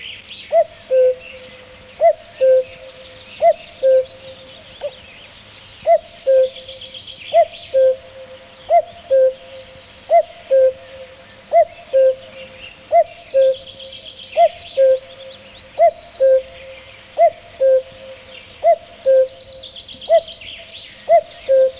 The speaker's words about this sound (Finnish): Käki.